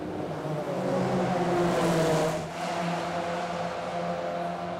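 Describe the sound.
A race car accelerates on a track with a steady, buzzing engine roar. It holds a constant drone that swells slightly in the middle, dips briefly, then carries on at an even level, with no voices.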